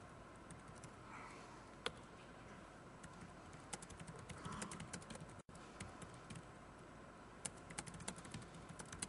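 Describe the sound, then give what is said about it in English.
Typing on a computer keyboard while entering a query into Wolfram Alpha during a demo: faint, quick, irregular key clicks patter throughout, with a few sharper taps standing out. “Considering I can't see what I'm typing.”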